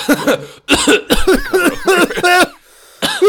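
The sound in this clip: Several people cough loudly in a rapid run of rough, voiced bursts. After a short pause, one more burst follows.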